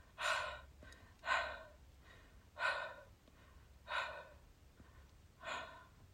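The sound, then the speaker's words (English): Soft panting from two sweaty people catching their breath after kissing in hot Nevada air: five breathy exhalations at a slow, even pace, each a short hushed puff, with no talk. “They pant softly.”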